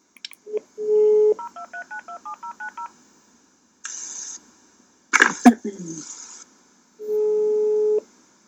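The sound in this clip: Telephone keypad tones as a number is dialed for a live call: a steady tone, then a quick run of many short beeps, followed later by longer steady tones with a brief noisy burst between them.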